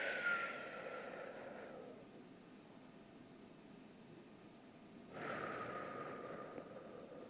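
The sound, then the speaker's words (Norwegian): A deep breath taken during a breathing exercise: a breathy inhale lasting nearly two seconds, a quiet hold of about three seconds, then a long, airy exhale. “en liten pusteøvelse sammen før vi starter denne episoden. Så vi skal trekke inn. Hold. Og ut.”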